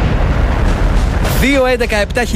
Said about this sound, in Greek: Σταμάτα το χρόνο πριν σκάσει η βόμβα.